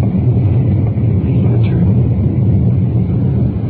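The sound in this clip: Steady engine and road rumble of a car driving with its windows open while swinging around a corner. The low, loud, continuous roar has no distinct separate events.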